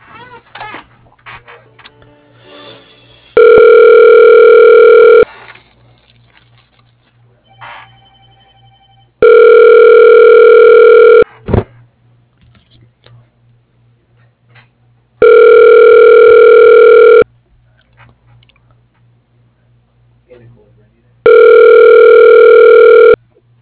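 Four long ringback tone bursts on a phone line as a call is transferred to voicemail, steady and evenly spaced, with quiet line noise and a low hum between them.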